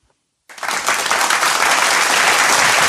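Audience applause bursts in abruptly after a brief silence, then holds as dense, loud, steady clapping from a crowd, with no letup to the end.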